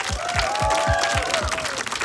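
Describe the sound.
Applause for the finalist bands at a band contest, a broad wash of clapping hands kept up throughout, with a steady series of deep low thumps beating beneath it and a sustained tone hovering over the crowd.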